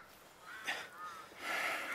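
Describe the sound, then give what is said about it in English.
Harsh, raspy bird calls come in a few caw-like cries, the last one longer and louder than the others. “Those birds are dangerous, and it's not the season for them, and that's odd.”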